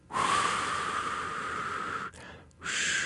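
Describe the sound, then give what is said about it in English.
A voice imitates the white noise of a sound machine with a steady, breathy 'shhh' hiss, held for about two seconds, briefly broken, then resumed. “We have a sound machine, which makes either white noise, which is just like,”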